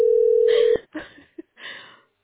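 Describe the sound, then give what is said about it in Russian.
A telephone beeps on a call that goes unanswered: a single steady, mid-pitched tone lasting under a second, followed by a few short, muffled noises. “Да причем ничего не говорят, дальше гудки.”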